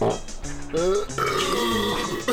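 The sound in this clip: A long, loud burp after a carbonated drink: a rough, voiced belch with a wavering pitch that runs almost unbroken for a couple of seconds.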